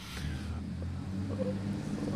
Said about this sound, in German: Und wir merken jetzt, wir sind wirklich in Wien, denn hier fährt gerade ein, was ist das, Porsche Cayenne an uns